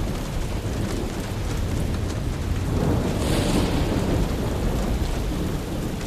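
Heavy rain and rumbling thunder on a rainy night form a loud, continuous roar that swells through the middle and eases slightly toward the end, with no voices.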